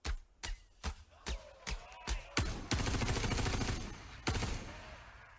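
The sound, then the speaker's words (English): Gunfire from bullets fired in a 3D video game demo: several sharp single shots in quick succession, then a loud sustained rapid burst, one more distinct shot, and a fading tail. “And then this next demo, we're going to fire some bullets. This is a bit loud, this one.”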